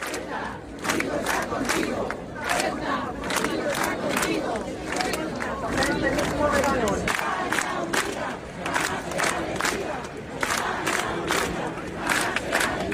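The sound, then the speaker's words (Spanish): A crowd of hundreds protesting in Plaza del Rey, chanting loudly in rhythmic, repeated bursts with shouts rising above the massed voices throughout. “Centenares de personas se concentraron la tarde de ayer en Plaza del Rey en una protesta”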